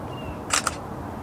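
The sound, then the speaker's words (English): A camera shutter fires twice in quick succession, two sharp, bright clicks close together, while a bicycle brake cable is being tightened. A faint, steady background hiss runs under the clicks. “Let's see if I can get a good picture of that.”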